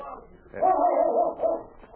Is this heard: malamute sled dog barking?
yes

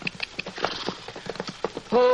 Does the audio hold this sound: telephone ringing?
no

